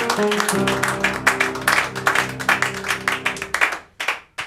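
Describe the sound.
Applause with clapping over a sustained musical backing: dense, loud bursts of claps that thin out toward the end into a few scattered claps.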